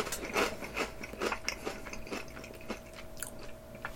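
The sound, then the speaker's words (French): Crisp, vinegar-seasoned ripple potato chips crunch during a taste test, with many sharp, irregular bites and chews sounding close and clear, with no talk over them. “Moi, c'est trois chips. Je goûte trois chips.”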